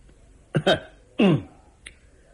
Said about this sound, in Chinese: 咳嗽了一声，冷冷地说